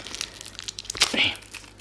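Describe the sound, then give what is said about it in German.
Plastic film wrapping crinkles as a gift book is unwrapped: soft, irregular rustling and crackling, mostly faint, with a few sharper crinkles near the middle. “Noch ein bisschen Folie eingepackt.”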